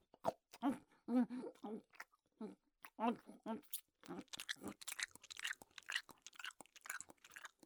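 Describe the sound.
Chewing and crunching as food is bitten and eaten: many irregular crisp bites and wet mouth sounds, fairly faint and uneven in rhythm.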